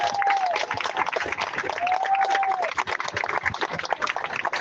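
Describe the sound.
Applause from a crowd at a solidarity gathering: dense, continuous clapping fills the whole stretch at a steady, fairly loud level, with thin whistle-like tones rising briefly above it twice.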